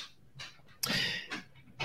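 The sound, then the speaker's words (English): A dog panting and shifting about indoors: a few uneven, breathy bursts of noise, one longer and louder than the rest, with quiet gaps between and no voices. “if the dog could settle down for a sec. You can sit down, buddy.”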